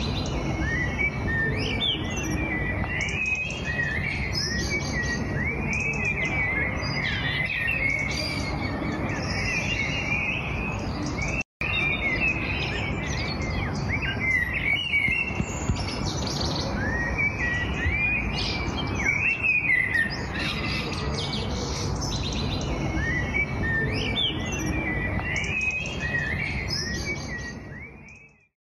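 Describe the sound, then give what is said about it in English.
Corsican blackbirds sing at dusk in northern Corsica. Many overlapping whistled phrases and chirps form a dense, steady chorus that carries through the whole recording at an even loudness. “some audio of Corsican blackbirds at dusk. This is from northern Corsica.”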